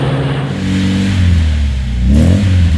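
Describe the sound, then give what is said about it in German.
A 1970 Opel Manta A car engine revs in a loud, sustained run of low droning harmonic tones that waver in pitch, then climb noticeably near the end. No voices are heard. “Opel Manta, weil man was vom Fahren versteht.”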